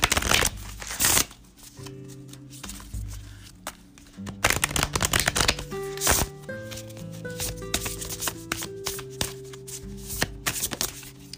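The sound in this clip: Tarot cards being shuffled for a card reading: several papery riffling bursts, loudest at the start and again midway, over a soft sustained tonal background.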